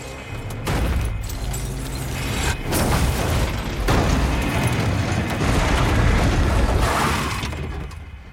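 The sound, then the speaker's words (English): A car crashes as it tumbles down a hill and slides on its roof, with heavy impacts and a continuous loud grinding scrape that carries through the whole clip. “The car tumbles down a hill and slides on its roof.”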